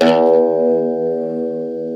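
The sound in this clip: A plucked electric guitar note with factory wiring opens with a bright, noisy burst at the attack, then settles into a strong, steady harmonic sustain that fades only slightly.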